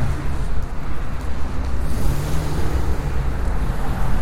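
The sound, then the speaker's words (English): Wind buffeting a microphone outdoors, a loud, low, rumbling roar that surges and dips in gusts for the whole stretch, with no voices. “the wind is really blowing again, so I apologize for the wind noise.”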